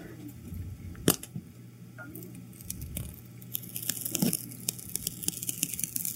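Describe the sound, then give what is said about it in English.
A logo sticker is peeled slowly off a surface, giving faint crackling ticks and small tearing snaps. The snaps grow denser and louder toward the end, with no voices. “It's like when you get a new electronic and you have to peel that plastic film.”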